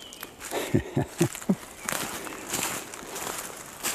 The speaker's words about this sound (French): Donc, là, nous marchons sur une piste qui est recouverte de beaucoup